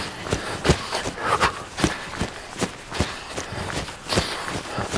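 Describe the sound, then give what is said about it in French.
Running footsteps thud in a quick, fairly regular rhythm, many firm impacts at moderate loudness with no talking. “Combien de temps tu vas encore courir comme ça?”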